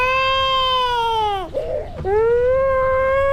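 A baby cries loudly in two long, strained wails. The first wail falls in pitch as it ends, a brief broken whimper follows, and the second wail rises at its start and then holds steady.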